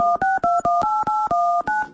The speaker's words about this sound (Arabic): ديرنا اتصال على طول مباشر دائرة الأملاك المخزنية